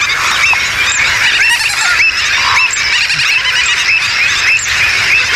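Gull-billed terns and other waterbirds call nonstop in a noisy colony. Harsh, overlapping squawks and honking cries form a loud, unbroken din with no pause.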